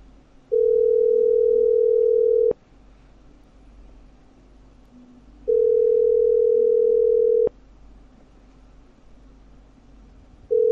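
A telephone ringing tone sounds on a call that goes unanswered: steady, mid-pitched tones about two seconds long, separated by longer pauses, with two full tones and the start of a third over faint line hiss.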